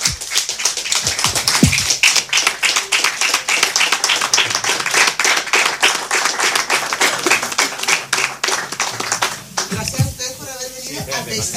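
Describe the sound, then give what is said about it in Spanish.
Audience applause fills a hall at a live event as the crowd rises to its feet: dense, loud, sustained clapping from many hands with no letup. “yo creo que un aplauso muy caluroso para”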